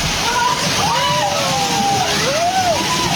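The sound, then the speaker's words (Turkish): Floodwater rushing into a house during a flood in Vietnam: a loud, steady roar of sloshing, pouring water that fills the whole clip without pause. “Vietnam'da ise sel bir eve böyle daldı.”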